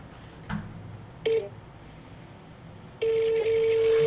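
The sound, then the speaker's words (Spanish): Electronic telephone tones sound while a phone number is dialed: a short beep, then a quiet pause, then a longer steady tone lasting about a second, with no talk. “Márcale, márcale, compadre, hasta que te conteste. A ver, vuelven a marcar tú, cara. A lo ti te marco yo.”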